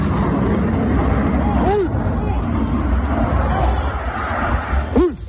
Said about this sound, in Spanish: Bueno, este era el momento en el que un avión F-18 se estrellaba en las inmediaciones de la base aérea de Zaragoza.